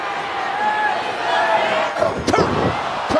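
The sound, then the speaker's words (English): A wrestler body-slammed onto the ring mat during a pro wrestling match, landing as a heavy thud with a second impact soon after, under a constant crowd roar and a commentator's excited talk. “And look at this. The Angle Slam. Kurt Angle connecting with the Angle Slam.”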